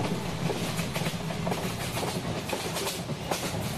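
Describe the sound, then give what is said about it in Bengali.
A train runs along the tracks at night, a steady rumbling roar carrying a rhythmic clickety-clack of the wheels, continuous and without voices. “রাত তখন অনেক train নির্দিষ্ট ছন্দে ছুটে চলেছে”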